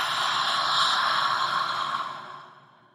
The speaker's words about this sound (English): big breath in through the nose and exhaling through your mouth